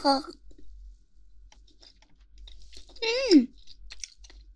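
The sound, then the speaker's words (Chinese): Chewing on a chewy piece of food, heard as soft, wet clicks and mouth sounds. A short vocal sound comes at the start, and a louder voiced exclamation rises near the end. “好有嚼劲啊！怎么感觉跟其他地方都不一样？”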